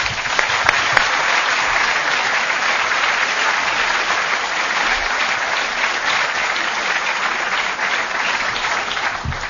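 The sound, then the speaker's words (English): Audience applause welcomes a speaker to an evening lecture on oil: dense, steady clapping from many hands, sustained at an even level for the whole stretch. “Please join with me in giving him a very warm welcome.”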